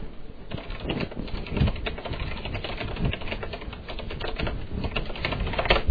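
Typing on a computer keyboard while composing a chat message on America Online: many rapid, uneven key clicks that patter on steadily throughout, with no voices.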